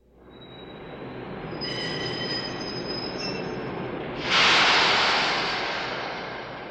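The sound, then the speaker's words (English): A French train running with a steady, loud rumble and a high metallic wheel squeal, which swells into a brighter hiss partway through and then slowly fades. “This is a train. It's a French train.”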